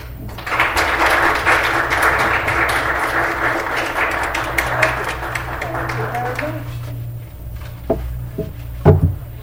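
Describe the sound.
An audience at the Pratt Library in Baltimore gives sustained applause to welcome a speaker. The dense clapping holds steady for several seconds, then dies away into a few knocks and a voice.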